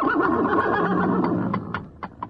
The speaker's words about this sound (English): The horse was known to haunt the district, and it was only a matter of time before...